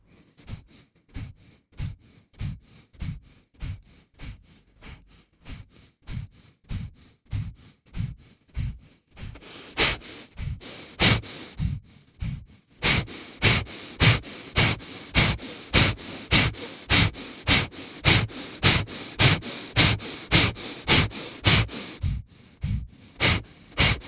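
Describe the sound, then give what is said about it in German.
Forceful abdominal breathing during a breathing exercise, with air pushed out in many short, sharp exhalations at an even, quick rhythm. The puffs grow louder and breathier partway through and stay strong to the end. “atme ein, lass den Brustkorb geweitet und beginn kräftig mit dem Bauch zu bewegen, um die Luft hinauszustoßen in deinem Rhythmus.”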